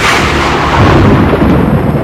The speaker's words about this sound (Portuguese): Imagine, de repente, no céu, aquele relâmpago e aquela explosão. O trovão, o relâmpago,